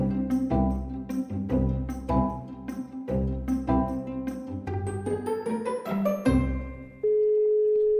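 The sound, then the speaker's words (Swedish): Phone call ringing tone: a melodic run of synthetic chime-like notes with a steady pulse, then a single sustained electronic tone at the end. The tones are moderately loud and play alone, with no voices. “Så vi slår en pling till Pernilla.”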